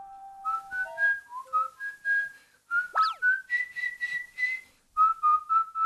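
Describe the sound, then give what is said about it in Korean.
A man whistles a lively tune of short, bright notes that jump between pitches, with brief pauses and one quick pitch swoop midway through. “휘파람을 부는 아빠 집사.”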